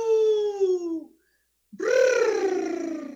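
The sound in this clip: A human voice imitating a wolf howl: two drawn-out, tonal howls separated by a short silence. Each holds a steady note and then slides gradually downward in pitch; the second begins with a brief upward scoop.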